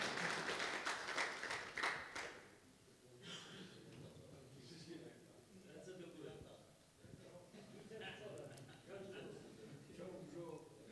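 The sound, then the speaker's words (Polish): Brief applause at a Catholic men's group gathering: a burst of quick, crowded claps for about two seconds, fairly faint, then a man's voice takes over and talk continues. “Dobra, dziękujemy, oklaski.”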